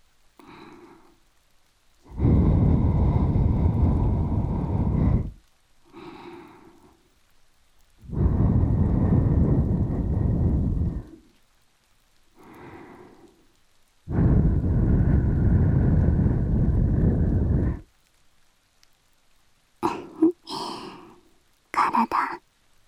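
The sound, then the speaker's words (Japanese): Breath blown into a microphone, three long, loud rushing gusts of about three seconds each, separated by soft whispered sounds, with a brief burst of whispering at the end. “そしたら息吹きかけるわよ。”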